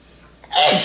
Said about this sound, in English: I sneeze away from the food of everybody.